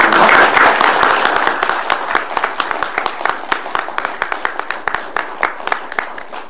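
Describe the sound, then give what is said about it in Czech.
An audience applauds at the end of a talk. Dense, loud clapping at the start thins out into scattered individual claps that continue to the end. “My jsme skočili do té debaty tak rychle, že jsme mu nezatleskali, tak jsem rád, že jsme zatleskali alespoň teď nakonec”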